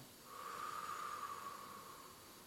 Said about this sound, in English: I breathe in and let it go.